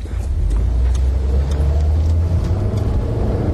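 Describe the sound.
Car engine rumbling steadily as the car drives, a continuous low drone that fills the whole stretch with no voices.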